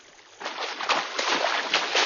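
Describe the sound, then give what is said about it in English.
Water splashes and sloshes as canoes race down a stream. Rhythmic bursts of paddling follow a quieter opening moment and repeat a few times at a fairly even pace. “They race down the stream until they reach the river.”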